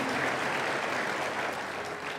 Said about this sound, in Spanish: Dele más aplausos al Señor.